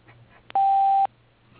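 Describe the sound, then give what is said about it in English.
An answering machine beep: a single steady, mid-pitched electronic tone lasting about half a second, loud and clean, with a brief click just before it and near-silence around it. “Please leave your name and number after the beep”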